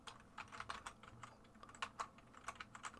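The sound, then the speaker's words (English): Typing on a computer keyboard to enter a web address in a browser: many quick, light keystroke clicks in an uneven rhythm, faint and without voices. “So if you open a browser window and you just type in Taurus Report,”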